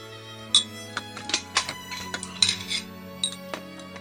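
Dishes, pots and cutlery clinking while a meal is cooked in a kitchen: many sharp metallic and ceramic clinks and knocks at irregular intervals, some louder than others.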